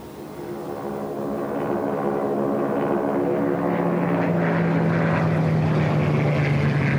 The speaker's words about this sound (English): Two Japanese Zeros land and taxi across the tarmac toward Nick and Joe.